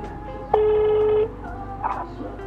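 A single steady telephone line tone, reported as busy as the call connects, sounds for under a second over a low background hum, followed by faint, brief sounds.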